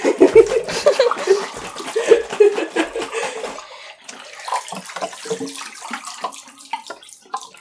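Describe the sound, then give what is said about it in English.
Running water splashes steadily as photographic film is washed after fixing in the Ilford method. A dense trickling wash is louder in the first half, then turns quieter and more broken, with scattered small splashes. “I can hear it over there. I am indeed, yeah. I've been done fixing for a while now. I'm just washing, trying to be as quiet and unassuming as possible.”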